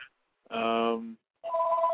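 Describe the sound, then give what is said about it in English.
A telephone rings with two bright, buzzing electronic tones separated by a short silence, after a brief fading tail of an earlier ring at the start. “I do need to grab this other phone real quick, though.”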